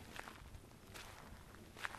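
Footsteps of someone walking through a Japanese garden: faint, irregular steps blended into a low, continuous background noise, with no talk.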